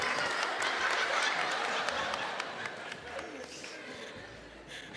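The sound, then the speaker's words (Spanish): Audience applause for a costume contest entrant on stage: dense, steady clapping mixed with crowd noise, loud at first and easing off toward the end. “¡Un aplauso para la amiga!”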